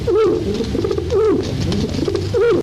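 A courier pigeon gives low, throaty, rolling coos, repeated in a steady rhythm. The calls are loud and alone and end in an abrupt cutoff.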